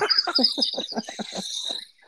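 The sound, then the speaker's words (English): Crickets chirp in a backyard in Iowa: a high, shrill, rapidly pulsed trill that repeats in quick bursts before fading out near the end. “We found Ron's crickets in his backyard. There we go. There we go. Yes, that's all we need. Back by popular demand. Ron's backyard crickets in Iowa.”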